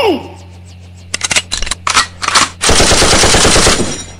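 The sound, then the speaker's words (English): Gunfire in a battle: a few scattered sharp shots and short bursts, then a sustained stretch of loud, rapid automatic fire. “we are drawing fire. We are under attack. From over there. I see them in front of that wall. Be careful! Return fire.”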